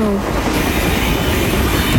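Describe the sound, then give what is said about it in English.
Model trains running on a track give a steady, loud rumbling whir with rail clatter throughout, and no voices are heard. “You make those trains go any faster and they won't stay on the track.”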